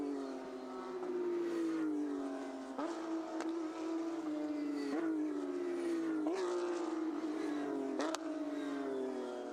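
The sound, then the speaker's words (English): Toyota race car engine as it slows into the pits on Michelin tyres after the race, a loud steady drone rich in harmonics whose pitch sags gradually, broken by a few sharp upward blips. “Toyota then, just about getting into the pits, putting a bit more dirt on either side of his Michelins”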